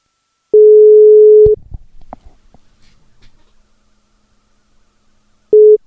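Telephone ringing tone heard while calling prize winners: a steady mid-pitched beep lasting about a second, then a long pause with faint clicks, and the next tone starting at the end.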